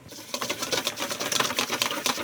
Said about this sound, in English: Drizzle just a little bit of oil in here, drops at a time. Go ahead and switch to the whisk.